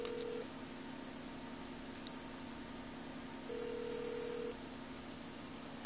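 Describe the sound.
Telephone ring tone on a call dialed to the municipal police in Mazatlán: two faint, steady, even-pitched beeps, a short one at the start and a longer one about three seconds later, over a low hum with no talk.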